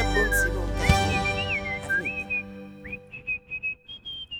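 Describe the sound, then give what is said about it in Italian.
A person whistling a wavering, melodic tune. Long gliding notes come first over some low background noise, then give way to a run of short, separate whistled notes toward the end. “Oh, ha finito da fischiare? Ha finito?”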